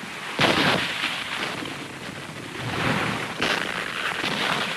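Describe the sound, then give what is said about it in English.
Two loud blasts of artillery shells exploding on a Civil War battlefield come about three seconds apart, each a sharp burst over constant rumbling battle noise. “A shell explodes away from the troops.”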